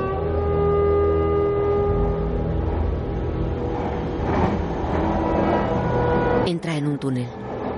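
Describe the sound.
A commuter train rolls along with a steady, loud low rumble and rattle throughout. A burst of sharper clatter and clicks breaks in near the end.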